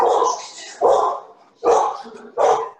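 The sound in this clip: A voice imitates a barking dog, with four loud bark-like bursts separated by short gaps, the first longer and more drawn out than the rest.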